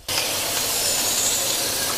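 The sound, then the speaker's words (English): Butter and garlic sizzle in a hot pan, a loud, steady, broad hiss that starts abruptly and holds evenly to the end, with no talk. “Now it's time to add the butter. Oh, and the garlic.”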